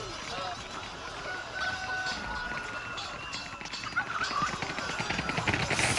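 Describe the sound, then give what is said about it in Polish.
Chickens clucking within a dense, busy mix of noise with running steps. The sound is steady throughout and grows slightly louder toward the end. “Kury.”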